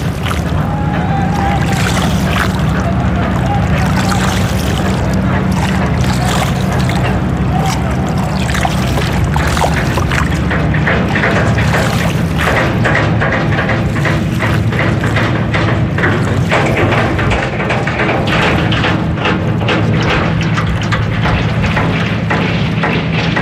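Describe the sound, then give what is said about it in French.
The din of a boat repair yard in the port of Dhaka, Bangladesh: a dense, continuous wash of knocking, clattering machinery and water, loud and unbroken, with indistinct voices mixed in. “C'est le chantier de réparation. Dhaka, c'est un port.”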